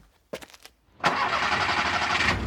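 A car engine is cranked during a jump-start attempt: a few short, choppy cranking pulses, a brief pause, then the engine catches loudly and settles into a steady running idle.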